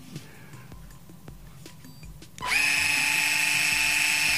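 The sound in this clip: An electric screwdriver with adjustable torque and speed settings starts after a quiet stretch of faint ticks and runs in a loud, steady, high-pitched whine.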